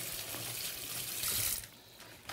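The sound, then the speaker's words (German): Hot tap water runs steadily while an untreated orange is washed under it at a sink, a broad rushing hiss that swells into a brief louder splash before easing back to a softer flow. “dann nehme ich jetzt die Orange, das sind ja unbehandelte Orangen. Die tue ich mal einmal heiß abwaschen, das ist wichtig.”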